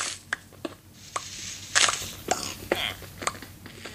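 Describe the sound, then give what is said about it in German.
Mining iron ore in the Minecraft One Block game: a series of crunchy digging hits at an uneven, fairly quick rhythm, with a louder cluster of strikes near the middle, heard alone without talk. “Juhu, dann kann ich gleich einfach mal abbauen. Eisen, wichtig.”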